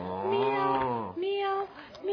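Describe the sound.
A cat meows in a voiced, harmonic call: one long drawn-out meow followed by a couple of shorter ones, moderately loud and with no other sounds.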